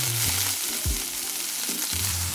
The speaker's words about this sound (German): Ich habe jetzt so Streifen rausgeschnitten. Die sind sehr länglich, so ich würde mal sagen 7 cm. Ich würde es jetzt erstmal so anbraten.